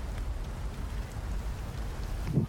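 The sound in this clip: Rain falling in a steady, faint patter with a low rumble underneath, continuous and even throughout, with no voices.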